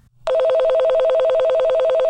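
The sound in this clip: Telephone ringing for an outgoing call: after a moment of quiet, a loud electronic ring starts abruptly and continues without a break to the end, with a rapid warbling trill.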